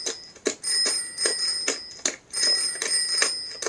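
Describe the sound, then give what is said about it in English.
Bicycle bell ringing in an audio video game: a rapid, bright metallic trill repeated many times without pause for the whole clip, with no voices. “Coming up on the left is a bicycle, it sounds like.”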